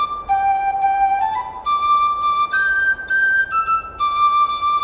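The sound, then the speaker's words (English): A penny whistle plays a short melody of clear, pure, high held notes that step up and down, with brief breaks between phrases and no voices. “Here is the sound of the penny whistle.”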